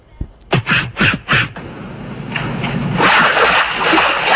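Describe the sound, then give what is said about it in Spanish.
Synthetic sound effect of a bird bathing in a pond: four quick splashy flutters in a row, then a swelling wash of sloshing, hissy water noise that grows louder toward the end. “Este es el usuario pidiéndole que haga un efecto de un pájaro bañándose en un estanque.”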